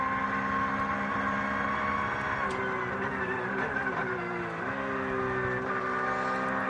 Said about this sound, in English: Bit of on board with Giorgio Piani here in the number 5 Porsche